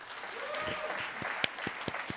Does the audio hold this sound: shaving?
no